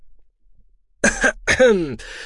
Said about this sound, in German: Er hustete und räusperte sich, dann ließ er sich entschuldigen, um das trockene Kratzen in seinem Hals zu beseitigen